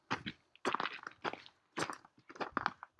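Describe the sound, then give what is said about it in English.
Soft crunching footsteps walk up a path in an uneven rhythm, a few quiet scuffs at a time with short gaps between them. “Going to walk up this path because there's a plaque.”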